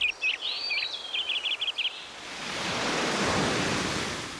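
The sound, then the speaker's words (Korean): Nature sounds: bright bird chirps flutter over a quiet hush for the first two seconds, then give way to a broad, swelling rush like surf or wind that rises and stays steady. “이토록 푸른 자연의 소리.”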